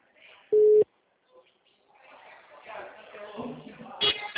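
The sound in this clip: A telephone tone after a dropped call: one short, steady, loud beep, then muffled, band-limited talk over the phone line.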